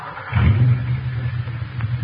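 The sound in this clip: A car engine rumbles steadily while driving, a low, loud drone that swells slightly early on and then holds even.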